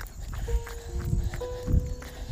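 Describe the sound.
Footsteps along a road while a dog is walked, a few steady, soft steps at an even walking pace. They sound fairly faint against a low background hum.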